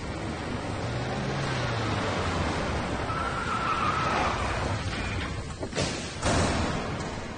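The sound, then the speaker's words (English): A shiny black pickup truck drives into a warehouse. A steady broad rumble of engine and rolling tires runs throughout, and a couple of brief louder thumps come near the end. “Soon, Mr. V's shiny black pickup drives into the warehouse.”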